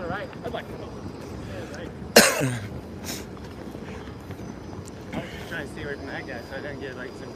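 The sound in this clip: Throat clearing on a city street where police are gathered: one short, harsh rasp of the throat that stands out sharply against steady background street noise, then trails off quickly.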